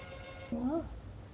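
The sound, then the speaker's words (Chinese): A telephone rings at home: a faint, short electronic warble that swoops upward once, over a low background hum. “我家咋会有电话呢？我接接试试。”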